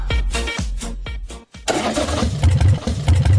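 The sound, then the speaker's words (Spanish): An old motorcycle engine is cranked in a few rough, sputtering bursts, drops briefly silent, then catches and runs with a loud, uneven rumbling idle. “Aún sufriendo por esa vieja. Por esa vieja moto.”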